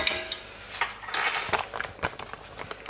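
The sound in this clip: Teaspoon clinking against dishes, a few light, bright metallic clinks and taps spread across the moment, fairly faint, with no voices.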